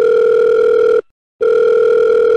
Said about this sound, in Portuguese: Vamos ligar pra ela ao vivo na verdade, na gravação?